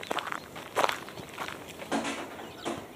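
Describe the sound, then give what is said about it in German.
Footsteps of a man walking on after dropping a bag into a rubbish bin: several irregular, moderately loud scuffing steps with no voices. “Da kommt Mr. Prentice mit der Tüte. Er steckt sie in den Abfalleimer und geht weiter.”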